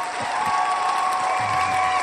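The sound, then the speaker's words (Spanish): Audience applause and cheering as a comedian is introduced onstage, a continuous dense clapping wash with a sustained tone running beneath it. “No sonaron los aplausos y eso me entristece. Aplausos, aplausos. Con ustedes, Memo Ríos. Aplausos, aplausos.”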